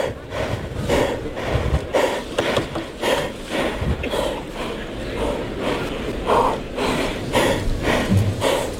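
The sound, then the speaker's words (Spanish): A bull from the Garcigrande ranch breathes and snorts in the bullring, with many rough, breathy bursts in an uneven rhythm over a steady, noisy background. “respiración del toro.”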